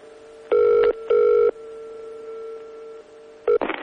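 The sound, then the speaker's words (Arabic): A telephone rings while a call is placed: two short, loud ring bursts, then a steadier, quieter tone, then one more brief ring cut off by a sharp burst of noise. “فأنا أحب ان انا اتصل بيه طبعا واستضيفه في هذا البرنامج وأشوف بقى أخباره إيه.”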